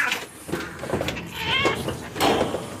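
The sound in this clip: A cat meows a few times in drawn-out, bleating cries with a wavering pitch, heard over a steady background noise.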